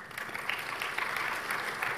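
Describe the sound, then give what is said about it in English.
Audience applause at a conference speed debate: a dense, steady wash of many hands clapping fills the whole two seconds at a fairly low, even level, with no voices rising above it. “So give him a big round of applause, Alistair McGibbon.”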